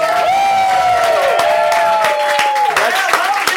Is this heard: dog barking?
no